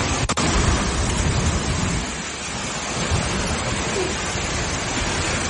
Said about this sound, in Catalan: És el so de l'esclafit que hi va haver-hi ahir a l'Hospitalet de Llobregat.